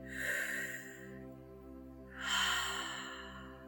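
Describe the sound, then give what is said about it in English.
A slow, deep breath is drawn in and let out in two long, airy phases, each swelling and fading, over a soft, sustained musical drone. “I invite you just to take a nice deep breath.”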